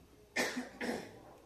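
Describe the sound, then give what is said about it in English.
Coughing to clear a frog in the throat: two short, harsh bursts about half a second apart, the second a little longer, standing alone with no talk around them. “I apologize, I got a frog in my throat.”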